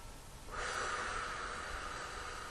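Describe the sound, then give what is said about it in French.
A deep breath drawn in during a guided meditation, a soft, steady airy rush that starts after a brief quiet moment and holds evenly to the end. “Nous prenons une grande inspire”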